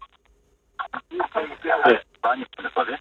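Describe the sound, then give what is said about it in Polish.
A radio plays in the background of a caller's phone line, coming through thin and narrowband as choppy bursts of speech-like sound after a short silence. “O, jakieś radio słyszę w tle.”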